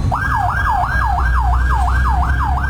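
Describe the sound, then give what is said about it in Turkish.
Fire engine siren on a city boulevard in Diyarbakır as the crew answers a fire call, a loud rapid yelp sweeping up and down about nine times over steady low traffic rumble. “Silvan Bulvarı'nda yangın ihbarı için yola çıkan itfaiye ekiplerine sürücüler yol vermek için fermuar sistemine geçti.”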